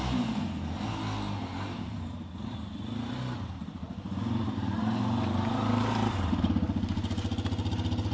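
A motorcycle engine runs and revs on an indoor stage: a steady mid-pitched rumble that grows louder partway through as the throttle opens, ending in a rougher, pulsing rev.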